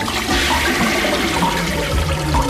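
A toilet flushes in a plumbing company's advert, a continuous rushing, gurgling surge of water that stays loud and even throughout.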